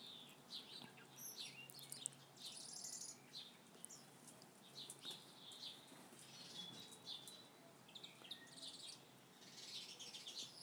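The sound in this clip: A hungry baby bird calls from a nest high in a tree, faint, high, thin chirps repeating many times in quick clusters over a quiet background.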